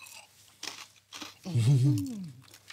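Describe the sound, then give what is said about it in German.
Crunchy food bitten and chewed: a few crisp, brittle crunches, then a brief voiced murmur. “Deswegen gehe ich mal so rein. Ist natürlich knusprig, wie man unschwer hören kann.”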